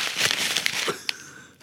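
Paper envelope being handled and opened for an award-night winner announcement: a run of crinkly rustles and soft tearing, then a sharp crisp snap before the sound fades.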